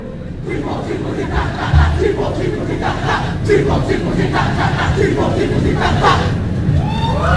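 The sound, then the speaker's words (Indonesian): A crowd chants and cheers as the Jembrana contingent performs its iyel-iyel chant on an open-air stage. Many voices make a dense, rhythmic roar, with loud shouts throughout. “Nggih, luar biasa sekali iyel-iyelnya disambut dengan tangan yang meriah saking penonton.”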